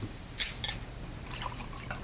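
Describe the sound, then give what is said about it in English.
Liquid trickles and drips faintly as a glass is filled with orange juice spiked with a little vodka in a kitchen, with a few soft splashy bursts over a quiet background. “She pours another glass and hands it to him.”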